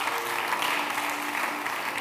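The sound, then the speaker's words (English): Applause from a church audience during a worship service: dense, steady clapping that stays loud and even from start to finish. “Give the Lord a mighty clap offering.”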